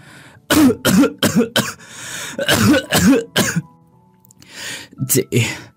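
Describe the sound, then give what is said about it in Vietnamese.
Harsh, dry coughing comes in quick bursts, two tight clusters of several coughs each, followed by a pause and a few fainter coughs. “Có tiếng ho khủ khủ vang lên, rồi tiếng thì thào:”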